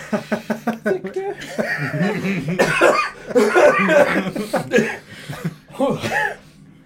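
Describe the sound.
A person coughs in several quick, rhythmic bursts at the start, followed by people talking and a little chuckling.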